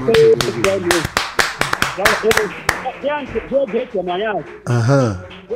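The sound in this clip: A church audience claps during a service: sharp, loud, rhythmic claps dominate the first half, mixed with voices calling out and sustained vocal tones that carry on after the clapping eases.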